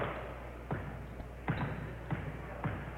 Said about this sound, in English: Well, now both basketballs don't have enough air in it.